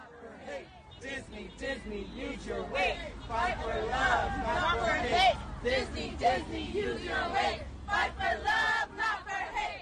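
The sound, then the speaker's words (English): Disney World employees in Florida protest the Parental Rights in Education Bill with crowd chanting. Many voices shout in rhythmic bursts that rise and fall, over background babble. “What you just heard were Disney World employees in Florida protesting against the Parental Rights in Education Bill.”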